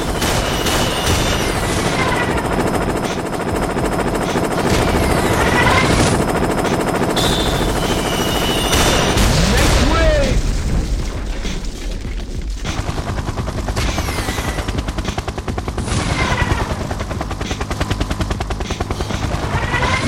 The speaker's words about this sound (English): Tanks. Planes. Helicopters. Just helicopters. What? Stop their shooting at us.